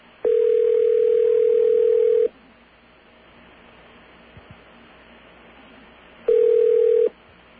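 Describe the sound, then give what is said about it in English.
Telephone dial tone on a line being used to reach an MCI operator: two loud, steady, unbroken tone stretches separated by a quiet hissing line with a couple of faint clicks, and no talk. “This will get us an actual operator. And we can ask the MCI operator if they know how to connect us or if they know how to tell us to dial AT&T.”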